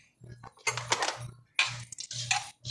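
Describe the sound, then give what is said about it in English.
Kitchen clatter from someone making a peanut butter and jelly sandwich: several sharp knocks and clinks of utensils and jars come in irregular bursts, with a person talking between them. “they're going to listen to me make a peanut butter and jelly sandwich at not 1 a.m. yet.”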